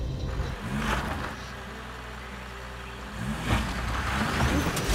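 An old vintage diesel car engine runs on a field track, giving a steady low rumble that swells louder near the start and again toward the end.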